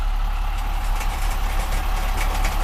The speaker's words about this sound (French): Derrière eux, un véhicule de sécurité les suit. L'énorme engin militaire couleur sable, à la tôle blindée, muni à l'avant d'une sorte de rouleau, compresse le sol sur son passage.